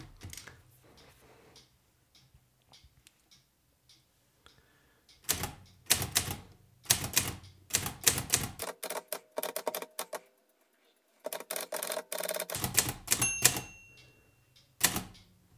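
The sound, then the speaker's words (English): Typewriter keys clack rapidly as an emoticon is typed on a manual typewriter: many loud mechanical strikes in dense bursts, a brief pause midway, then more quick keystrokes, with no talk. “It's really fun to write an emoticon on a typewriter.”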